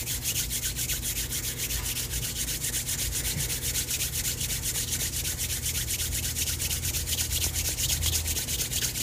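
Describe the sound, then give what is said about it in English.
Hands rub briskly together during a meditation practice, a continuous dry swishing made of many quick strokes that keeps an even loudness throughout, with no talking. “Now, taking your hands and rubbing them together.”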